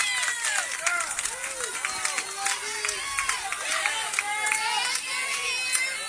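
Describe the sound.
A baseball crowd cheers for the Mounties with a dense, continuous roar of many voices, full of shrill shouts and whoops that rise and break throughout.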